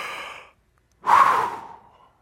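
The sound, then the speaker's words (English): A person taking a deep breath: a soft, airy inhale, a short pause, then a longer, louder exhale that trails off like a sigh, with no talking. “I mean, just do that with me right now. Just take a deep breath.”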